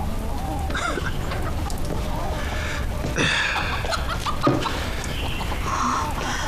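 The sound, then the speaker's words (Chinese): An egg-laying hen clucking in short, scattered clucks, mixed with people talking over steady background noise. “你把这只鸡抱回去。我这只天天都下蛋。”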